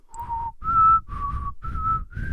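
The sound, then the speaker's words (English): A person whistles an unsteady attempt at a TV theme: five sustained, breathy, mid-pitched notes separated by short gaps. The notes stay nearly level, and the last one is slightly higher, over a faint low rumble. “I'm bad at whistling, but I forgot to ask for a music cue, so...”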